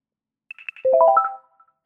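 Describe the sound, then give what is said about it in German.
A completion notification tone from Shutter Encoder video conversion software: a few quick plucked notes followed by a bright cluster of chiming tones stepping upward, lasting about a second and then fading to silence. “gleich gibt es einen schönen Ton, wenn Shutter Encoder fertig ist.”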